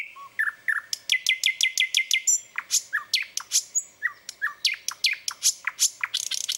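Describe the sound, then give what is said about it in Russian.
Nightingale song from an experienced bird with a rich, varied repertoire: many rapid, high chirps and sharp whistled notes in quick repeated runs, loud and clear, with no talk. “опытного соловья, потому что он послушал разных других соловьев, научился у них всякому, взял кусочек у одного, кусочек у другого, и его песня получилась очень богатой и разнообразной, и интересной.”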